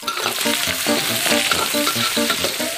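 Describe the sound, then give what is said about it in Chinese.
Smoked cured pork slices stir-frying in a wok give off a steady, loud hiss and crackle of hot oil, with rhythmic scraping and stirring running through it. “烟熏腊肉切片煸香，加入红辣椒，”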